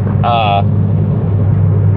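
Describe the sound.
Steady low engine rumble and road drone inside a moving car, constant and unbroken, with a brief voice sound near the start.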